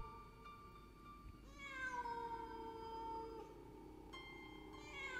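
A cat standing in a far corner gives long, drawn-out meows, quiet and tonal, one stretching over a couple of seconds before another begins.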